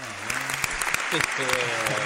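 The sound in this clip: A round of applause breaks out, a loud, even patter of clapping while voices talk over it.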